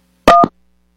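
Telephone dialing tones sound during an attempt to place a call, a short, loud burst of steady beeps standing alone before silence.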